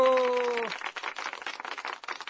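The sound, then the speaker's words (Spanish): Applause follows a brief held tone at the start, with loose, fluctuating clapping that rises and dips in uneven bursts. “Ahora sí vienen los aplausos, Adrián.”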